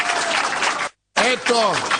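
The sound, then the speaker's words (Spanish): Audience applause at a live comedy show: dense clapping runs for just under a second, cuts to a brief silence, then a man starts speaking. “Esto, no es un disco de aplauso, paren.”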